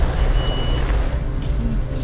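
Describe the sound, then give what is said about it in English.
Heavy truck braking to a stop in a video game, a dense, steady rumbling roar that holds at an even level throughout with a faint tonal whine above it. “Stop. Stop the truck.”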